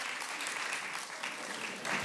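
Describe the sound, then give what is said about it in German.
Crowd applause for a group who built a cross out of crates: dense, steady clapping that holds for the whole stretch and swells slightly louder near the end. “Und ich würde sagen, das ist ein ganz, ganz fetten Applaus wert.”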